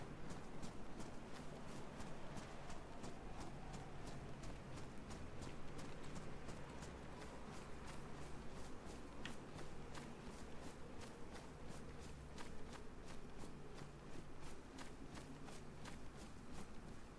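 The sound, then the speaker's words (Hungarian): Pigs running away in a video game make a rapid, steady patter of many light hoof taps over a constant noisy bed. The even rhythm carries through the whole stretch with no talking. “Megzavartam őket, ott szaladnak a malacok. Fuss, malac, fuss!”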